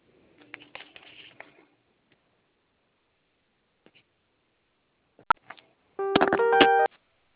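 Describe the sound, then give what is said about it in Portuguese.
A single DTMF keypad tone from pressing zero on a phone, lasting just under a second, after near silence broken by a few faint clicks and taps. “Para concluir e receber mais detalhes, aperte o zero.”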